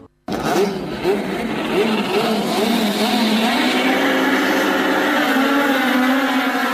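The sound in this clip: Touring race cars of a national touring championship accelerate with a loud, continuous engine roar. Several quick rising revs come early, then the engines settle into a sustained, climbing drone.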